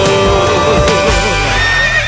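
A horse neighs in a loud, wavering whinny whose pitch trembles up and down for about two seconds over a steady low background.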